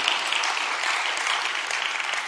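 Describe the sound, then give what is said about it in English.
Audience applause in a church: a brief, even burst of many hands clapping together, dense and steady with no pauses. “a couple of you wanted to clap. You can do it. It's all right.”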